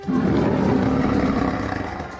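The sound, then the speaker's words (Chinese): A lion's roar imitated by a small scouting bat: one long, low, rough roar, loud and steady before it fades slightly toward the end, with no talk over it. “有狮子的叫声，往那边发出来的”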